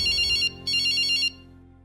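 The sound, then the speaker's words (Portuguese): An electronic telephone ringtone trills in two high, rapid bursts separated by a short gap, ringing loudly over a low steady background tone. “No dia seguinte, eu liguei para o Tiago.”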